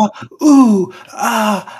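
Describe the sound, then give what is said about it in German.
A voice imitates a video game heroine's whiny moaning and groaning: a few short breathy gasps, then two drawn-out groans, each sliding downward in pitch. “die Hauptdarstellerin, die hat halt, die jammert, schreit und stöhnt in dem Spiel mehr als Monika Seles beim Wimbledon in den 90ern.”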